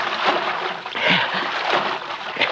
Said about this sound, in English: Gotta throw those dogs off the trail. He got to wade the creek, even if it is full of cotton mounds.